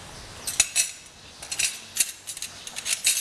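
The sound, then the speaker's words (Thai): A spoon clinks and scrapes against a pot while stirring soup to dissolve pounded curry paste, with light, irregular metallic ticks spread throughout. “ตักน้ำซุปมานิดนึงนะคะมาละลายเครื่องที่โขลกไม่งั้นเดี๋ยวจะเป็นก้อนนะคะนะคะคนให้ละลายนิดนึง”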